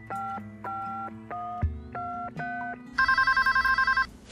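A telephone number is dialed on an outgoing call to a best friend: a few clear keypad tones, then a fast, warbling ring begins, with no talk.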